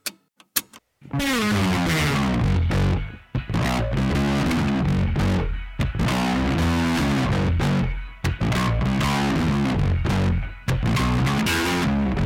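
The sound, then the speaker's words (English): Distorted, dirty bass guitar with a gritty, heavily effected tone, played loud and sustained in rhythmic phrases with a few brief breaks, after a couple of short clicks at the start. “Like no, that is a distorted, dirty bass.”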